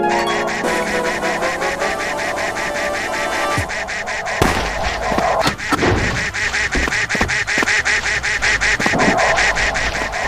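Cartoonish duck quacks from a party video game sound repeatedly over a dense, continuous bed of loud game audio with sharp percussive hits scattered throughout.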